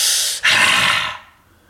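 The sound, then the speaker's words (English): A single forceful breath demonstrated during a breathwork session: a loud, airy rush of air, a brief break, then a second long hissing rush that gradually fades away, with no talking. “But can you demo it first though, real quick, so we know what one looks like, and then guide us through, I think. So I'll just do one breath.”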